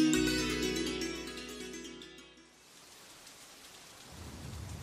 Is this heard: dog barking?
no

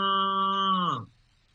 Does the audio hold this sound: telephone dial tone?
no

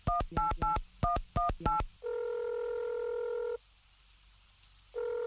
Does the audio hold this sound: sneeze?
no

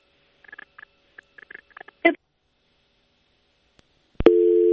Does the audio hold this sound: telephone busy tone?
yes

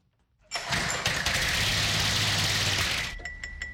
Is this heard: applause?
no

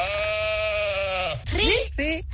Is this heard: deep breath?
no

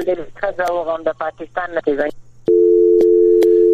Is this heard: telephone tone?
yes

